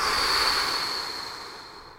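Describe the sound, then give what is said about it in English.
A long, steady breath rushes out as a soft, airy hiss during a guided breathing exercise of inhaling through the nose and exhaling through the mouth. It stays level at first, then slowly fades over about two seconds. “I invite you to inhale through your nose, exhale through your mouth.”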